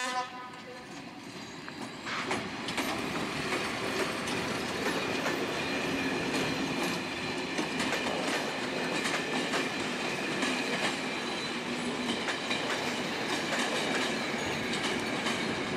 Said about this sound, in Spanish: de fondo se escucha resoplar a la locomotora, la cual sí está en marcha.